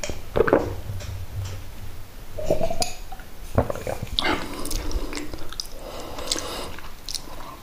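Crunchy chewing of biscuits eaten in the morning, with many irregular crisp bites and moist crunches sounding alone without talk.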